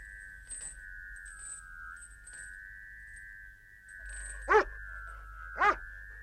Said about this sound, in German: Was war das? Ach so, der Hund.